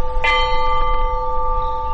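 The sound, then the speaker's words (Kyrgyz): A peace bell is struck once at a memorial ceremony, its bright metallic tone ringing on and slowly fading across the two seconds. “Андан кийин ынтымактын символу катары тынчтык коңгуроосу кагылды.”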